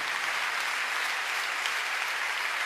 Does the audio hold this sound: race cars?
no